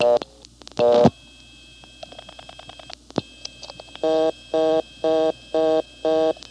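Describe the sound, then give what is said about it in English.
A Montpelier step-by-step telephone exchange. A couple of loud tone bursts open, then a quick run of dial-pulse clicks as 221 is dialed, followed by five evenly spaced bursts of reorder tone. “If you just came into Montpelier and dialed the 1, you're supposed to get a reorder. It blocks, goes to the 11th terminal. And here's that happening.”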